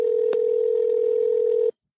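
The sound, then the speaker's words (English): A US telephone ringback tone for an unanswered call: a single loud, steady electronic hum lasting under two seconds that cuts off abruptly into silence. “It's an eerie sound, the US telephone ringtone, you know, when no one picks up.”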